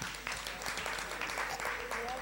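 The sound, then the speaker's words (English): Faint applause from an audience at a toothpaste promotion quiz, a soft continuous patter of clapping with voices talking over it. “Please stand up. Let's clap for her.”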